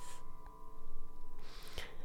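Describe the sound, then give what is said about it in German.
A hissing "shh" exhalation through the mouth during a guided breathing exercise, following a quieter stretch over a soft, steady background tone, with a brief breathy hiss at the very start. “atme nochmal durch die Nase ein und nochmal mit einem Sch aus.”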